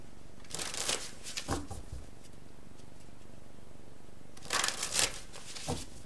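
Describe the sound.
A deck of cards shuffled for a card reading, in two bursts of crisp, papery riffling separated by a quiet pause.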